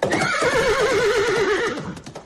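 A horse gives one loud, sustained whinny with a shaking, wavering pitch that lasts almost the whole two seconds, then trails off.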